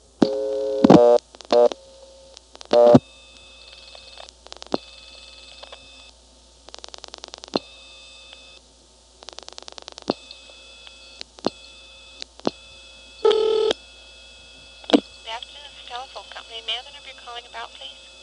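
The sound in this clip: Touch-tone telephone dialing a number: a run of electronic tone bursts in an irregular rhythm, some short and clicky, others held longer, fairly loud and steady in pitch.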